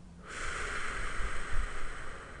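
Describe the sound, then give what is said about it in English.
A slow, deep breath drawn in through the nose during a guided relaxation exercise: a steady airy rush that starts abruptly and holds for about two seconds, alone without talk. “take a few slow, deep breaths, breathing in through the nose and out through the mouth,”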